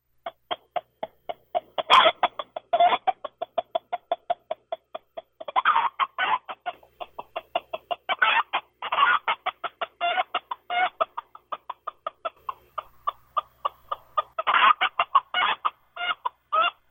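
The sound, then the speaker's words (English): Rapid clucking chicken call blown on a predator hunting call, many short, sharp bursts in a steady rhythm with some louder, accented clucks, played alone without talk. “that's pretty much a chicken call.”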